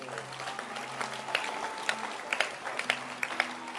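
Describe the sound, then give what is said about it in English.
A church audience claps their hands, scattered claps landing in a loose, steady beat over sustained tones and a low hum. “Oh, clap your hands for this book.”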